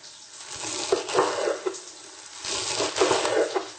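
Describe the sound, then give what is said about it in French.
A knife chops a bunch of watercress, stems included, into coarse pieces, making many crisp, crunchy cuts in a dense, fairly steady rhythm that briefly slackens midway. “on prend la botte de cresson ainsi et on la coupe en morceaux grossiers. Même les tiges, ça va.”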